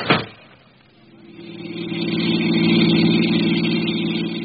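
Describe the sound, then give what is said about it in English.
A car engine pulls away after a sharp opening knock, its mid-pitched hum starting low and swelling into a steady, stronger drone that holds to the end with no voices. “I left the morgue, drove straight to the home of Thomas Wenzel, the chairman of the board.”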